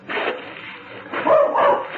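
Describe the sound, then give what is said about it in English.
A small mongrel dog barks a few times in short, sharp bursts, with the louder barks toward the end; the sound is narrow-band and slightly muffled. “Get away, you little mutt.”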